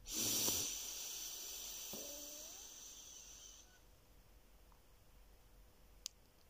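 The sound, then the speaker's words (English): A deep breath drawn in through the nose: a soft, steady hiss that lasts a few seconds, then fades into near silence, with one faint click near the end. “And here we go, a deep breath in through your nose.”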